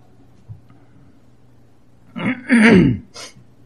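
A single loud, rasping throat clear, a rough burst lasting under a second after near silence, followed by a brief breathy tail.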